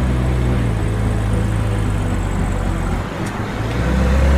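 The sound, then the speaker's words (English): A car driving off down a long road: a loud, continuous, low engine and road rumble that holds steady, dips briefly near the end, then swells again. “She starts driving off.”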